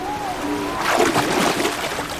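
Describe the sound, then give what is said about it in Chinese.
Sea waves surging onto a shore where grey seals are mating, a rushing wash of water that swells midway and lingers as a broad, noisy surge. “浪花的翻涌反而给这对配偶提供了帮助”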